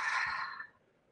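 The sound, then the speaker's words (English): A single deep exhale through the mouth, a breathy rush of air that starts strong and fades away within about a second. “And then let's take a big collective breath in deeply through the nose. Big exhale, release through the mouth, send it away.”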